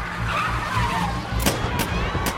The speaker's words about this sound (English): A white van skids, blocking the traffic.